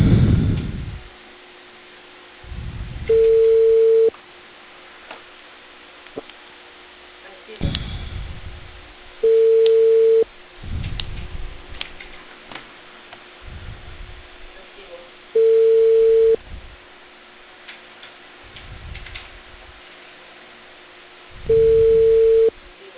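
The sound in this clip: Telephone line tone heard while placing a call: four steady beeps, each about a second long and spaced roughly six seconds apart, over a thin, narrow-band line hiss with brief low bumps in between.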